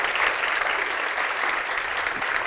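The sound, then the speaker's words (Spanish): Applause from a standing church audience welcoming a visiting pastor, a dense, even wash of many hands clapping that holds steady at full volume for the whole moment. “Por favor, si podemos recibirlo con un aplauso.”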